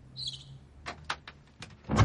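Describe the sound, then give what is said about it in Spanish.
A small door under the stairs opens with a brief high creak. A few light clicks and knocks follow, ending in a louder rustling thump, with no voices. “Abre una portezuela bajo las escaleras.”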